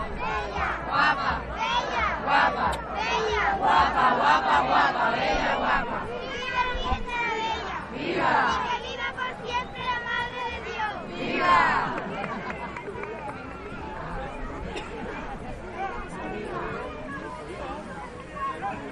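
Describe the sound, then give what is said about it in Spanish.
A pilgrimage crowd shouts cheers to the Virgin in loud, overlapping bursts of voices that swell and ebb, with dense hubbub filling the gaps between the louder surges. “este es el sonido ambiente que tenemos aquí, este precioso sonido que escuchamos, los vivas que se le rezan a Nuestra Señora, la Virgen de la Bella.”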